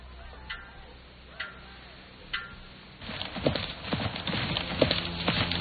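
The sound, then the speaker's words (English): Hooves of a white horse clip-clop as it is ridden into the courtyard of a large house: three sparse, faint clops at first, then a louder, denser run of quick hoofbeats through the second half. “rides a white horse into the courtyard of a large house, where he dismounts.”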